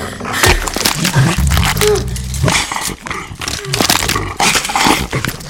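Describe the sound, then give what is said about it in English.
A dog growls and snaps, a loud, harsh and rough snarling with sudden sharp bursts that continues throughout. “The real Jesse wakes, kicking, and boots the dog in the face. It snaps at her leg.”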